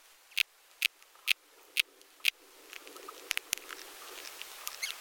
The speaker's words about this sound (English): then we hear this characteristic sound, the sound of larvae and adult beetle motion. It's a simple motion within the interior phloem of the tree.